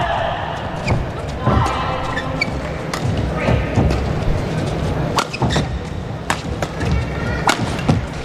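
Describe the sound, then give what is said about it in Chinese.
A racket striking a shuttlecock in a professional badminton match, with the Thai team serving at 10-11. Many sharp, snappy hits come in an irregular rally rhythm, with voices in the background. “10-11。 泰国队继续发球，现在只差一分了。”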